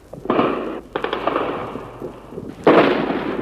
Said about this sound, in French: Ils tirent à la mitrailleuse sur le palais.